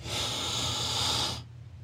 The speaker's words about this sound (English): Inhale.